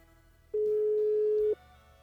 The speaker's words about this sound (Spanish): te estamos marcando, pero no. Pues no toma la llamada.